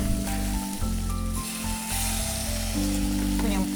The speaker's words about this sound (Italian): adesso facciamo sfumare col brandy. Andiamo a infiammare. Facciamo flambè.